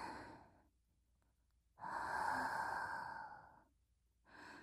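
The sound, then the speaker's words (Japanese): Slow, deep breaths in and out, airy and breathy: a long, louder breath in the middle between quieter ones at the start and end, with no talk. “ほら、息を吸って息を吐いて、”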